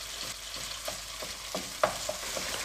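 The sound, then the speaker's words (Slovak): Chunky salmon pieces sizzle softly in a pan while being sautéed until golden for a linguine dish. A steady, faint hiss carries a few brief scraping stirs, with no talk. “Restujeme vlastne aj toho lososa, dokiaľ nebude mať takú zlatistú farbu.”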